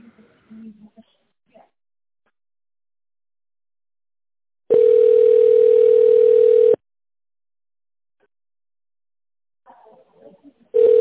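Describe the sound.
A telephone ringback tone plays as a call to a company is transferred to a secretary. A long, steady mid-pitched tone lasts about two seconds, silence follows, and the tone starts again at the end, with a few faint scattered noises between.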